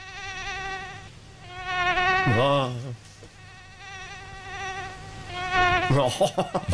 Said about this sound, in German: bei vielen wahrscheinlich verhasstes Geräusch des Sommers. Weltweit gibt es schätzungsweise um die 3700 Arten von Stechmücken.